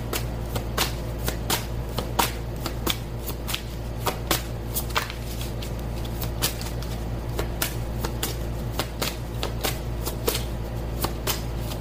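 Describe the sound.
Tarot cards being shuffled during a reading: many crisp, sharp riffling snaps repeating steadily for about twelve seconds over a low, constant hum, with no talk.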